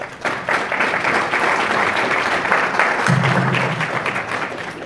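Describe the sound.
Audience applause welcoming two speakers at the start of a talk, steady and continuous throughout, with many hands clapping at even loudness.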